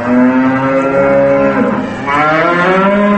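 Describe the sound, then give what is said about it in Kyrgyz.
Bulls bellow loudly near cattle barns built in different years, approached in a Skoda pickup, at a dairy farm. The deep, drawn-out moo runs continuously for about three seconds with a slight dip, with no talk over it. “Ар кайсы жылдары курулган сарайларга жакындай бергенде мөөрөгөн букалардын үнү болду.”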